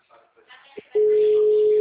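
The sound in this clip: A telephone ringing tone plays during a call, a loud, steady, single-pitched tone that starts midway and holds to the end. Brief faint voice sounds come before it.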